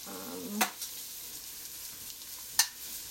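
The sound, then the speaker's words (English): Onions frying in a pan with rendered fat give a steady, quiet hiss of sizzling, broken by two brief sharp scraping clicks. “The onions are still a little white, so I'm gonna wait until I add the tomato paste in.”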